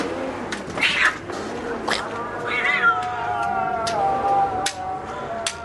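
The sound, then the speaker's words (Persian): An unruly cat meows several times. The cries are loud and uneven, and some are drawn out into wailing, caterwaul-like yowls, with short pauses between them. “خوش گربه چقدر چموش. گربه های چموش شد.”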